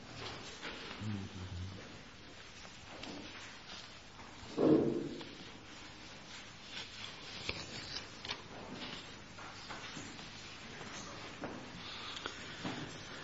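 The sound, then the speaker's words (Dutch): A church audience opening their Bibles to Luke 5: a steady wash of soft rustling and ticking as many pages turn at once, with one brief louder thump partway through and no talking. “Wilt u uw Bijbel open doen in eerstelijks in Lucas 5. Lucas 5.”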